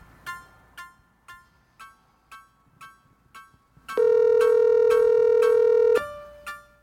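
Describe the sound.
Telephone ringing on an outgoing call: a string of short repeated electronic beeps, then a loud sustained buzzing tone for about two seconds, followed by a fainter steady tone.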